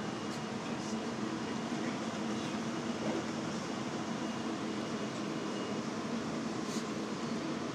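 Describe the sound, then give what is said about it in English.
Steady, even rumble and hiss inside a moving passenger train bound for Los Angeles, a faint continuous noise with no distinct events. “As the nice man has said, we're on train 707.”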